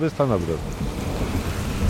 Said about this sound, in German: Plötzlich Regen. Nichts Ungewöhnliches in den Kaukasusbergen.